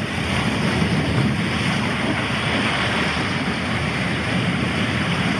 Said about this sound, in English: Hey, play relaxing ocean sounds. This is the sound of an ocean.